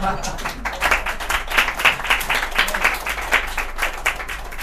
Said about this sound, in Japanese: 今夜はどんどん参加して帰ってくれ拍手とかしてもいいんだぜ